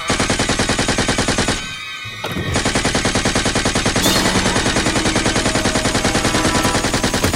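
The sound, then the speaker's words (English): Tommy gun firing in long, loud, rapid automatic bursts with a steady rattling cadence, broken by one short pause before the fire resumes and continues to the end. “Quick, grab a Tommy gun and follow me!”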